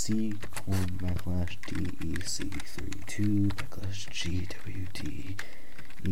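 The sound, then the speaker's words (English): Computer keyboard typing as a command is entered into a run dialog, with rapid, uneven clicking keystrokes. A voice keeps talking over the typing throughout. “I'm gonna type”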